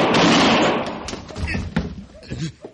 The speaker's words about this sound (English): He shot me, Marshal. I got a right to protect myself. I saw it, Rad. You drew on him first.